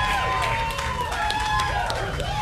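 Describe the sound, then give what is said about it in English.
Audience applause and cheering at a live event as a woman is called up on stage, a steady wash of clapping and crowd noise with voices and tonal sounds running over it throughout. “Big round of applause, ladies and gentlemen.”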